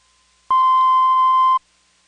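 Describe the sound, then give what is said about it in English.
A cueing tone from a master tape of a recorded telephone intercept message: one steady, pure beep at a medium pitch, about a second long, alone against silence. “it's the cueing tone from the master tape.”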